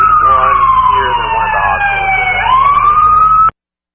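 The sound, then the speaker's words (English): Emergency vehicle sirens wail loudly in a sustained tone that slowly sinks in pitch, then climbs again, before cutting off abruptly. “It's hard to hear with the sirens”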